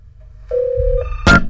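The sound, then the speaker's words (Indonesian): A telephone line tone as a caller comes through on a call-in line: one steady mid-pitched tone lasting about half a second, then a couple of short sharp clicks, with no talk. “Oke, kita buka nih kilen teleponnya. Siapakah yang beruntung nih menjadi penelpon pertama? Ya, ini sudah ada penelpon.”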